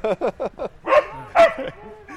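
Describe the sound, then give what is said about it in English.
A dog barks in the background: a quick run of short, high yipping barks, then a couple of louder, fuller barks. “every episode does normally have a barking dog. Yeah. In the background”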